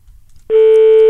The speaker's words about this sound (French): Pour l'instant ça sonne, vous l'entendez comme moi, ça ne décroche pas.